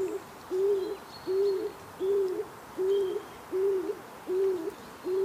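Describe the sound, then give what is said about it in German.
A stock dove, a woodland pigeon that nests in tree holes, calling: seven low, hollow cooing notes repeated at a steady, even rhythm, each a short rounded hoot, over faint background birdsong. “Das ist eine Taube. Ja. Und zwar die Hohltaube. Die nicht so heißt, weil sie dämlich ist, sondern die so heißt, weil sie in Wäldern gerne in Baumhöhlen brütet.”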